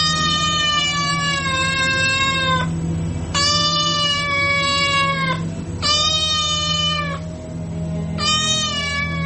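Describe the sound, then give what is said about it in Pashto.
A cat meows from outside at a window: four long, high, drawn-out meows separated by short gaps, loud and clear over a faint low steady hum. “پیشو له بهره د کړکۍ ژی ته راختلې وه، میو میو یې کاوه.”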